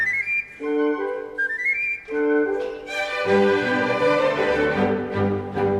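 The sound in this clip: Pan flute, a reed-pipe shepherd's flute, plays breathy, whistle-like melodic notes with sliding pitch bends. The texture later grows denser and fuller with lower tones.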